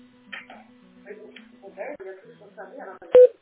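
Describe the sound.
A telephone call is dialled: a steady low dial tone hums under someone talking, then fades. Near the end, a single short, loud key beep sounds.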